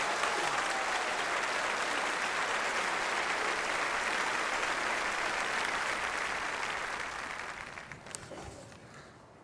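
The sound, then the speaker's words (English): Audience applause welcoming a speaker, a dense, even sheet of clapping for about seven seconds that then thins and fades, leaving a few stray claps at the end. “Before you sit down, would you clap and please welcome with me Tony Campolo.”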